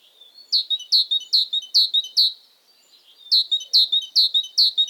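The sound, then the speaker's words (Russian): A tit sings bright, high, repeated notes in an even rhythm: a run of five, a short pause, then four more, clear and alone against silence. “Вот как звучит синица.”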